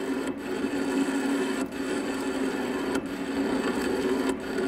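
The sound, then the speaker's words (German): A historic lathe machining an old crane workpiece clamped on the faceplate: a steady, dense grinding whir runs throughout, broken by a few brief regular dips as it turns. “Ich habe hier ein Werkstück von einem alten historischen Kran auf der Planscheibe. Mit anderen Worten, ich bearbeite ein historisches Werkstück auf einer historischen Maschine.”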